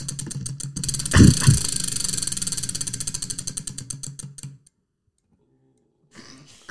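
Ticking of a spinning game wheel. A thud comes first, then steady, rapid clicks that gradually slow and stop, followed by silence and a faint rustle at the end.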